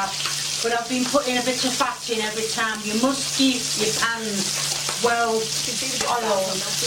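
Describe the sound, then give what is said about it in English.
Buttered white bread frying in a well-used egg pan, a steady hiss and sizzle running under a person talking throughout. “It should be white bread and you need to butter it both sides to get it perfect. Put it in the crusty egg pan.”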